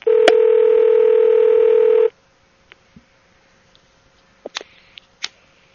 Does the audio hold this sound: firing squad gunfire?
no

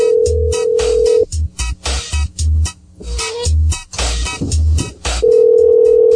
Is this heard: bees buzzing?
no

